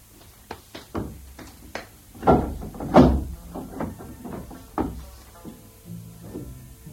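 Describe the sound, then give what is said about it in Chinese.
A hall door is opened: a string of wooden knocks, clunks and thuds, two heavier ones standing out near the middle, with no voices over them. “嗱，打开厅门，等我睇下荷花池嗰边。”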